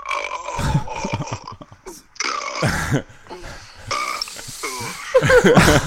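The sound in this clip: A man burps repeatedly: several long, croaking belches with a throaty, voiced tone, separated by short pauses and varying in loudness, the last ones the strongest.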